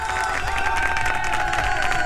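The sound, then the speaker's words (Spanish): Applause and cheering from a crowd: dense, steady clapping mixed with raised voices, loud and sustained throughout. “Así que aplausos para la gente que se levanta hoy con ganas de revertir cualquier situación y con ganas de que el día sea perfecto.”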